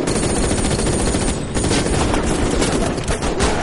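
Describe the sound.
Sniper gunfire during a shootout in an action thriller, heard as a loud, dense, unbroken barrage of rapid shots lasting throughout, with no voices.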